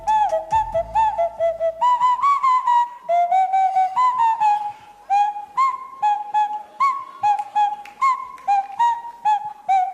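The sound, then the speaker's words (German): A nose flute plays a lively tune of many short, pure, whistle-like notes that hop between a few pitches, with no other sound around it. “Wie das klingt, wird uns jetzt mal unser ehemaliger ESC-Kandidat Isaac vorspielen. Der hat ja 2024 für uns gesungen, da hat er keine Nasenflöte gespielt, aber er kann das.”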